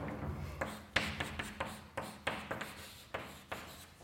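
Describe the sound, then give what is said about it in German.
Marker or chalk strokes on a board during a German lecture on an ellipse: a steady series of short scratching taps and swipes, each sharp at the start, following one another in an uneven rhythm with no talk over them. “also das schreibe ich nochmal hin, also Ellipse”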